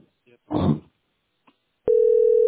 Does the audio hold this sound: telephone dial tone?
yes

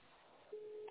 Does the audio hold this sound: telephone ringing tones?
yes

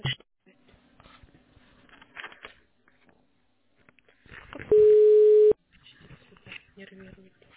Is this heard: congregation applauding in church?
no

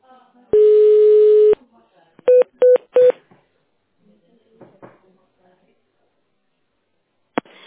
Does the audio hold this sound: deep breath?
no

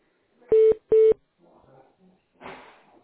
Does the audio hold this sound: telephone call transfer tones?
yes

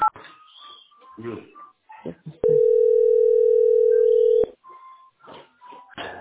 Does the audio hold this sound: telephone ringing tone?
yes

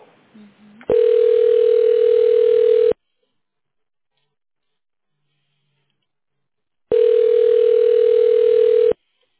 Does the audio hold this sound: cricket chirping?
no

